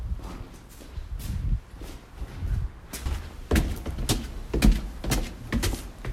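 Footsteps climb steep wooden attic stairs in an old building. Many irregular hollow thuds and knocks come as the steps land, growing heavier and more frequent in the second half.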